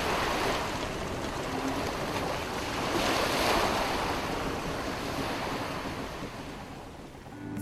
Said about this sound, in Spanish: escuchar el sonido de la madera crujiendo al desplazarse por el agua. También podemos apreciar el sonido del viento, que hace que las velas se inflen y el barco pueda ir desplazando.